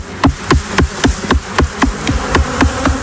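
Buzzing of a male honeybee drone, a plump, large-eyed bee, heard as a loud, steady train of rapid pulsing bursts with a low droning hum beneath.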